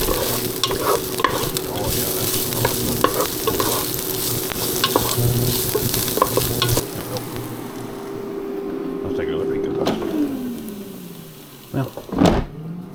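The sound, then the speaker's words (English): Food sizzles in hot oil in a pan, seasoned with ginger paste and cooked until crisp: a steady, dense crackle with stirring scrapes throughout, easing slightly near the end with a few sharper clatters. “We'll just keep her cooking. Keep her cooking until she crisps.”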